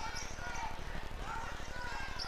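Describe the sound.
A basketball is dribbled on a gym floor during a girls' high school game between Auburn High and Opelika, many quick, even thuds in a steady rhythm under continuous talk.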